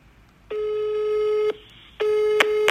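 A telephone line tone sounds while someone places a call. It comes as two long, steady, buzzy tones of about a second each, separated by a short gap, with a couple of faint clicks near the end.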